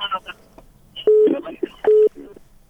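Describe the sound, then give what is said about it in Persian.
A telephone call disconnecting: two steady, identical mid-pitched beeps of a disconnect tone, separated by a brief gap, with muffled voice fragments over the line around them. “تلفن قطع شد.”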